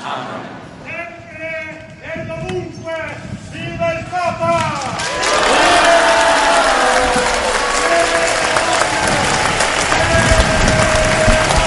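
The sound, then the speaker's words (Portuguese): An audience applauds Pope Leo XIV. A voice is heard first, then a loud wave of clapping swells up about halfway and carries on to the end with a voice still sounding over it. “Vocês, portanto, saúdam o Papa Leão XIV com um aplauso.”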